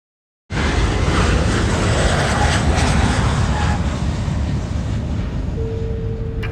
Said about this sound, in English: One of the great moments in the film is the landing scene where our main character is coming into Cincinnati.